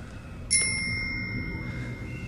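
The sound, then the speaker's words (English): A single bright ding from a bell on a bicycle's handlebars, rung by a giant, struck once and ringing on in a clear, high, slowly fading tone over a faint, steady background hum. “The giant faces them and rings the bell on a set of handlebars from a bicycle.”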